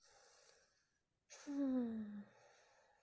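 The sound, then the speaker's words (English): One deep breath during a tapping exercise session: a loud, partly voiced gasp-like intake with a falling tone, set between faint breathy sounds and a brief silence. “Okay, take a deep breath.”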